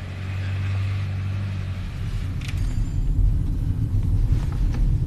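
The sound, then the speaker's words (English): Car engine rumble while driving down a very steep hill into the middle of Pontypool: a steady low drone that grows slightly louder and rougher in the second half. “Driving down this very steep hill into the middle of Pontypool.”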